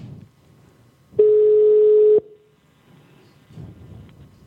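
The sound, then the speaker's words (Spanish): An outgoing telephone call gives a ringing tone: one steady, low-pitched electronic beep lasting about a second, set between quiet stretches of faint background noise. “Bueno, vamos a probar otra vez. Ahí ya está dando llamada.”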